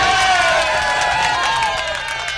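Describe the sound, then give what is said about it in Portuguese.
Loud crowd cheering with applause for a woman: a dense roar of shouting voices with sustained tonal yells and scattered clapping beneath, staying loud throughout. “Palmas pra ela, palmas.”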